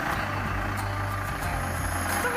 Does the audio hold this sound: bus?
yes